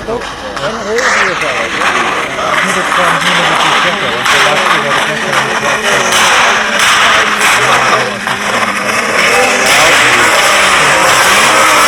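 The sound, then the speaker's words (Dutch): A car engine revving loudly and continuously, roaring and surging in waves, with people talking over it. “Dit is een andere auto.”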